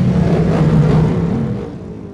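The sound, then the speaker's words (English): Engines of racing machines pulling away together on a warm-up lap: a loud, steady, low rumbling roar that holds for over a second, then fades gradually over the remaining second. “everyone's frantically getting their gloves back on, getting back on the machines. And they are now on their way for that one warm-up lap”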